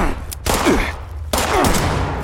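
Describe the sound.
Video game gunfire during a firefight: loud, dense bursts of shots, with a brief lull near the middle before heavy firing resumes and continues to the end.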